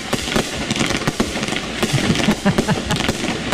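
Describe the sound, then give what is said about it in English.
A firework cake fires aerial shots from a 35-shot, three-part red, white and blue display. A dense, continuous barrage of loud crackling pops and sharp bangs follows in quick, irregular succession. “bold three-part aerial performance that lights the sky in iconic red, white, and blue. Each cake fires 35 powerful shots.”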